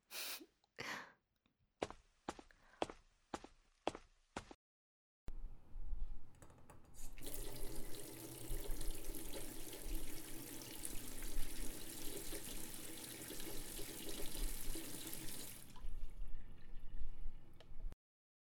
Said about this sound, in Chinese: 我们去洗澡，我去放水